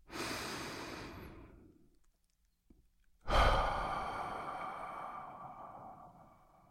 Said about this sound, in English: And if you're ready, let's take a deep breath.